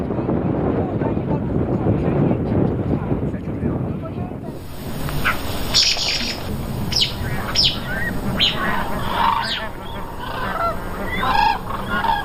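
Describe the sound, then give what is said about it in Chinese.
A separated black-necked crane chick gives urgent distress calls, many short, sharp, high cries repeated in quick succession, with talk and rough background noise in the early part. “如果是幼鸟失散了，它会发出这种比较急促的这种那种叫声。”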